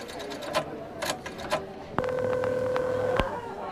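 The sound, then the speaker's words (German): A telephone is dialed to make a call. A few short tonal blips are followed by a steady electronic tone lasting about a second, over a faint background hiss. “Ich hatte noch einen Anruf zu tätigen.”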